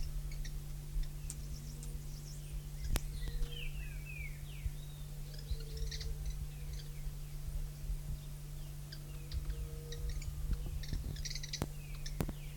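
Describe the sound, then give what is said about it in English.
Three birds twittering: many short, faint, high chirps scattered throughout, over a steady low hum. “three birds present. Little twittering notes.”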